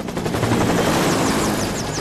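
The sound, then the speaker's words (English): A stricken, smoking helicopter gives off a loud, steady roar of rotor and engine noise that holds at an even level throughout, with no voices. “Smoke billows from Marwan's helicopter, caught in the glare of a CTU search beam.”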